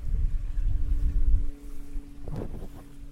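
Gusty wind blows outdoors and buffets the microphone as a heavy, low rumble for about a second and a half. It then eases to a quieter rush, with a short burst of noise near the end.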